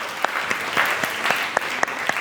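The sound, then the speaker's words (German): Brief, light applause from an audience at a live show: a short spell of scattered hand claps with several distinct, fairly regular sharp claps standing out over a soft patter. “Jetzt ganz kurzen Applaus für unseren mutigen Mann.”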